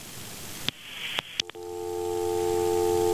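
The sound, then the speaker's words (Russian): A telephone line gives a busy tone after a call drops. A few sharp clicks sound over a background hiss, then a steady electronic tone holds alone to the end. “И звонок у нас, к сожалению, сорвался.”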